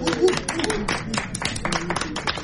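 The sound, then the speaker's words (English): Audience applause for two young men stepping up as contestants in a Valentine's quiz: many quick claps at moderate volume, mixed with a speaking voice. “Would you like to step up here, both of you? Give them a round of applause.”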